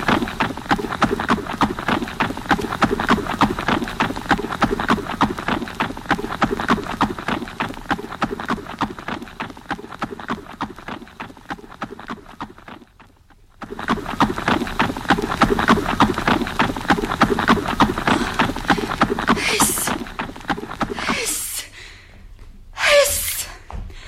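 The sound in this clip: Horse hooves clip-clop in a fast, steady, unbroken clatter that stops briefly midway and then resumes, finishing with a few louder separate bursts.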